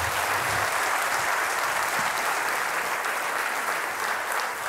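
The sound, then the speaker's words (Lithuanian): Applause from an audience welcoming a guest onto the stage: a dense, continuous wash of many clapping hands that holds steady and eases off only slightly at the end. “Šį vakarą iš čia, laikykitės ten, pasitikime plojimais, Saulis Matusevičius.”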